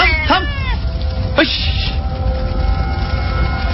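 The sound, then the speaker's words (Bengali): A large brown cat calls twice, each cry deep, thick and rough, sounding coarser than an ordinary cat, after snatching raw chicken meat near jungle cover; a steady low background noise runs beneath both calls. “বিড়ালটার ডাক শোনা যায়, অন্যান্য বিড়ালের মতো নয়। ওর ডাকটা একটু অন্যরকম,”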